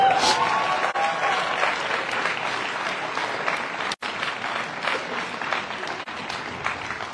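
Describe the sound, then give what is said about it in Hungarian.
Loud, dense applause from an audience, with steady clapping that continues for about seven seconds and dips only briefly near the middle. “Nagy tapsot Gyuszi bácsinak!”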